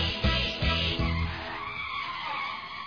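Car tires skid with a few loud, screeching bursts in quick succession, then the sound fades into a lower rumbling tail.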